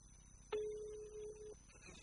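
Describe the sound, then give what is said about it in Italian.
A telephone call being placed, a single steady mid-pitched ringback tone lasting about one second, with quiet line noise before and after. “Io sto già chiamando la signora Laura.”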